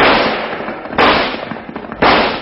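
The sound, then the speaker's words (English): Gunfire as a gang shoots at a house: three loud, sharp bursts at steady one-second intervals, each followed by a rough, noisy decay. “There's a whole gang down there pumping lead into the Charlton house.”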